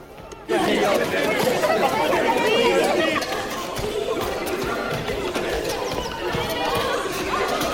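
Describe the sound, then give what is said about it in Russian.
Crowd murmur fills a palace courtyard as people watch an elephant: a dense, steady babble of many overlapping voices that starts abruptly and then holds at an even level throughout. “Во внутреннем дворе дворца толпа наблюдает за слоном.”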